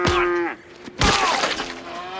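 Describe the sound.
A cow mooing: two loud, drawn-out moos, the first a smooth harmonic low that drops at its end, the second rougher and noisier after a short pause.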